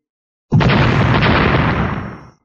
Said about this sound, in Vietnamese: Một trận thanh âm nổ đùng đùng kịch liệt không ngừng từ chỗ va chạm cuồn cuộn lan ra